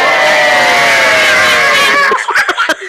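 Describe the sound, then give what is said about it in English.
A crowd gives a loud, sustained cheer of many shouting voices during a storybook scene. It cuts off abruptly after about two seconds, followed by a few short, choppy sounds. “And when it had finished this short speech, they all cheered.”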